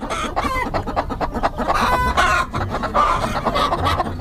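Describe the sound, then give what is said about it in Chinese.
Many black-boned chickens cluck nonstop inside a crowded farm coop at night, a dense, busy chorus of overlapping clucks and squawks that holds steady in volume throughout. “就是为什么非得在晚上而且在鸡舍里面抓呀？ 白天在外面放，然后只有晚上给它统一起来才好抓。”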